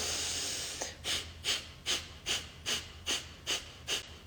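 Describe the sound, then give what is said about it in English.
Breath of fire, a rapid breathing exercise during a guided group practice: a long steady breath, then nine quick, forceful exhalations at an even, pumping rhythm, soft and breathy. “When you're ready, you're going to take a deep breath in, start the breath of fire practice.”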